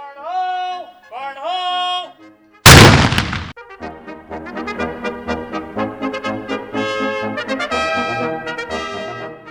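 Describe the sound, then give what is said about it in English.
A single loud blast from a Civil War era gun bursts out sharply and decays quickly, set between stretches of sustained tonal sound. “Is it possible to get you to fire the gun again?”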